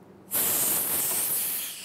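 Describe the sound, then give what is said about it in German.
Air rushes into a freeze-drying chamber holding strawberries with a loud, steady hiss. It starts abruptly after a brief quiet moment, holds evenly, then eases slightly toward the end. “Dann erst kann wieder Luft eingelassen und die Dörrkammer geöffnet werden.”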